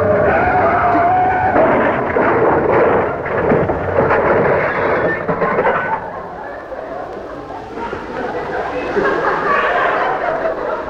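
A car brakes hard and crashes through a fence into a planting bed near a newspaper kiosk, a loud continuous roar of skidding and rumbling noise that eases somewhat in the second half.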